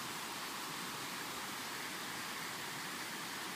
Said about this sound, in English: Look it, it's a confluence. The confluence is always a sacred, special place where two rivers meet.